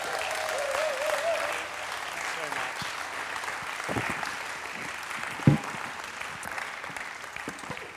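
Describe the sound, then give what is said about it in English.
An audience applauds warmly to welcome a speaker, with dense, steady clapping that gradually thins out and a single sharp knock partway through. “And now let's give him a warm welcome.”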